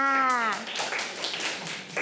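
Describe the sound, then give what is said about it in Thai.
Children clapping for themselves during a classroom question game: a brief voice, then a short burst of uneven, scattered claps for over a second. “เด็กๆปรบมือให้ตัวเองค่ะ”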